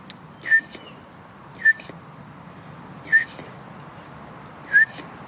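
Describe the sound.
A person whistles an imitation of a bullfinch call during a walk in a park, giving four short, high whistled notes spaced roughly evenly apart over faint background hiss.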